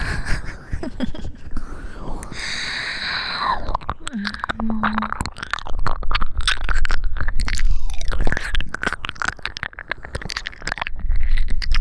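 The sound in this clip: Close, wet chewing and crunching of food, with many rapid bites and smacks that carry on throughout, loud and dense, with soft vocal sounds at moments.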